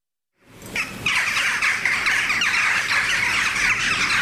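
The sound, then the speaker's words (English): Jackdaws call in a backyard in Wales, starting abruptly after a moment of silence. Many overlapping squawks build into a loud, dense chorus that carries on steadily to the end. “That's the sound of jackdaws in the backyard of Izzy, my niece's house in Wales.”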